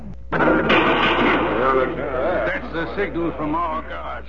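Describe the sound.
Gunfire used as a signal by guards breaks out in a few sharp bursts during a tense meeting with cattlemen, and loud excited voices talk over the shots throughout.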